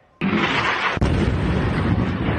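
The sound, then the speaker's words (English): Explosions from strikes on the city of Tyre in southern Lebanon: a loud, sudden blast opens into a sustained, heavy roaring rumble, broken by a second sharp report about a second later before the roar continues. “And multiple explosions rocked Tyre in the south.”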